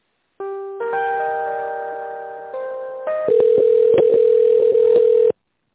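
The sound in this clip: Telephone line tones while a call is transferred: loud, steady electronic tones that shift pitch in a few steps, then settle into one tone chopped by a rapid series of clicks, ending abruptly, with no voices.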